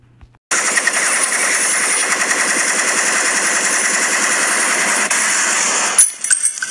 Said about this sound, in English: shots fired